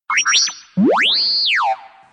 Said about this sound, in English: The droid beeped and shook on his foot, bouncing back and forth with a chorus of,